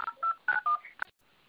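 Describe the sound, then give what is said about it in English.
Telephone keypad tones entering a PIN: a quick series of short, clear beeps at shifting pitches, each separated by a brief gap. The tones stop abruptly, leaving only faint hiss, with no talking. “Enter your PIN followed by the pound key.”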